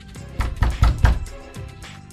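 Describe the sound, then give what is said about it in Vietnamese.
A door is pounded hard until it shakes: a rapid series of heavy, low, booming thuds with a rattling edge. The blows are strongest in the middle and taper off toward the end. “Cửa bị người đập tới mức rung lên.”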